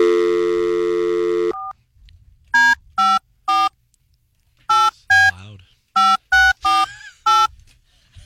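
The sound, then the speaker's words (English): Telephone keypad tones are heard as a number is dialed. A steady dial tone runs first, then cuts out and is followed by a series of short, loud beeps in irregular groups with brief gaps between them. “What can I dial out on?”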